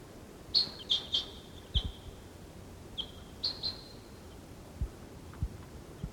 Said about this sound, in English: There's some other wild birds around. Decoys calling.